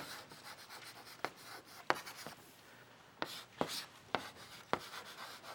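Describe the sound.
Writing on a board: faint, scratchy strokes punctuated by several sharp taps as the marker or chalk meets the surface, spaced irregularly across a quiet background.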